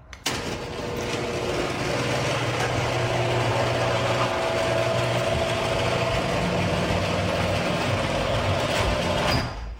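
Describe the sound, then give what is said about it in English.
A noisy, shrieking garage door runs as one continuous mechanical drone with thin whining tones layered over a low rumble. It starts abruptly, holds steady for about nine seconds and stops sharply, with no talk. “what you heard is what we hear almost every single day. That is what what we'll quote-unquote call a normal garage door sounding like.”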